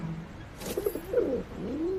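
Soft, low cooing of a pigeon, with a couple of quiet, rolling coos over faint background noise.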